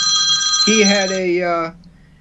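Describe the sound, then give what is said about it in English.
A telephone ringing with a bright, warbling electronic tone that holds steady for under two seconds and then cuts off. “the phone rang”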